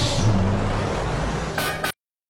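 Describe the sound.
Truck engine rumbles steadily and loudly, then a short burst of hissing air like a brake release, before the sound cuts off abruptly into silence.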